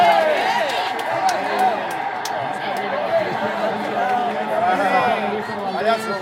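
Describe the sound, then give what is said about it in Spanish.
At the Bernabéu during a Real Madrid–Barcelona match, the stadium crowd rises and appeals for a penalty. A loud roar of shouting voices is loudest at the start, dips, then swells again near the end. “Se levanta el público del Bernabéu que pide penalti.”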